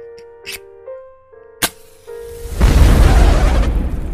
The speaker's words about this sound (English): you came just in time for me to light the fire.